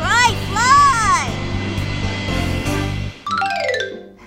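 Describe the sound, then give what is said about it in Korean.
Airplane engine drone used as a sound effect in a children's story about flying, a steady engine hum under lively talk and sweeping voice-like tones, with the last second or so turning to bright tonal notes. “오, 에어플레인. 어 난다.”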